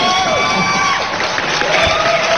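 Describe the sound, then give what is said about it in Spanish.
Cheering and clapping for young girls who are guests in a radio studio: excited voices whoop and hold bright shouted tones over a loud, continuous bed of crowd noise. “Se merecen doble aplauso entonces por estar con nosotros el día de”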